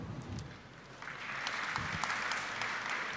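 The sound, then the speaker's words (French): Audience applause after guests are introduced at a book event with authors and a translator: dense, steady clapping that grows fuller and louder about a third of the way in, then holds as an even wash. “Donc celle que vous venez d'applaudir, c'est donc Hao Jingfang, Gao Yifang,”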